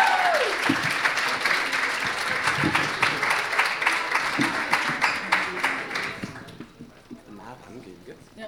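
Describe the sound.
Applause from an audience at a school event, dense steady clapping that holds for about six seconds before thinning out and fading near the end.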